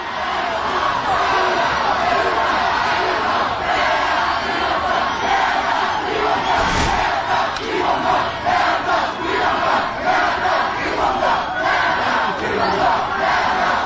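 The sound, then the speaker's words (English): A large crowd of student protesters opposing the Sensenbrenner legislation chants the old Vietnam-era anti-draft slogan, a loud, continuous mass of voices in a steady rhythmic chant that carries throughout. “Hear that? Hell no, we won't go. They've appropriated the chant of the anti-draft protesters, I think, from Vietnam originally, and have used that.”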